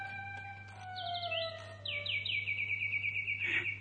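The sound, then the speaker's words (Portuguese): Chirping song of a wind-up mechanical bird given as a gift to a king in a palace: a short burst of high trills, then a longer run of rapid, repeated falling chirps over a steady low hum. “Oh, é um pássaro de corda! Vejam que preciosidade!”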